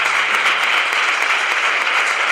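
Studio applause, a steady wash of many hands clapping at an even level for a couple of seconds without a break.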